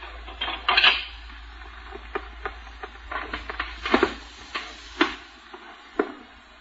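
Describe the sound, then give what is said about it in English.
Clinking and clattering of a broken pickle dish, many sharp light taps and rattles in an irregular rhythm. “I want to know who done this. I want to know who broke this pickle dish.”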